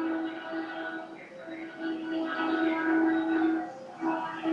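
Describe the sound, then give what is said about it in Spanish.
A train passes as a steady droning tone with layered harmonic overtones, holding a fairly constant pitch and swelling slightly in loudness toward the end. “primer tren. ayer pasaron tres y el otro día pasaron como, 15 en, el tiempo de la, de la sesión.”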